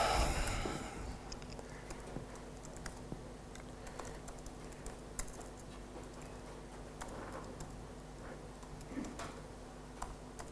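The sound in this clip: Faint typing on a computer keyboard while text is added to a profile file: many light, irregular key clicks run steadily throughout with nothing else heard.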